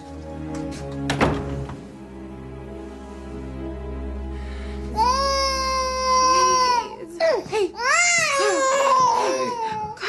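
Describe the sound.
A tired, fussy baby boy cries: a soft thump comes early, then loud, wavering wails with sobbing breaks fill the rest.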